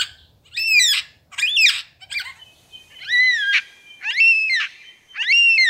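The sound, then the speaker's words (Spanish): Squawking calls of a yellow-tailed black cockatoo, followed by a lyrebird imitating them: two sets of three loud, harsh, bright calls with a pause between, and no other sounds. “Aquí está su imitación de una cacatúa fúnebre a coli amarilla. Primero escucharán al ave imitada y luego al ave lira real.”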